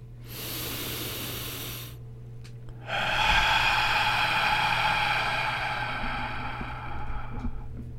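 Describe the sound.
A deep breath drawn in, then released as a long, hissing exhale during a guided breathing exercise; the airy inhale lasts about two seconds, and after a short pause the louder, breathy outflow fades slowly.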